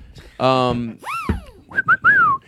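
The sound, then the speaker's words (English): A slide whistle played during a stand-up comedy set swoops up and back down in pitch, then gives two short bright toots and a longer note that glides downward, loud and clear. “Great slide whistle plays on that.”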